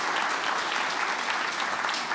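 A church audience applauds to welcome visitors, a steady, even wash of many hands clapping at moderate loudness, with no single claps standing out.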